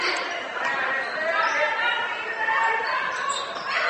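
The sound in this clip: Basketball dribbled on court during a women's game, the repeated bounces mixed into steady crowd noise throughout.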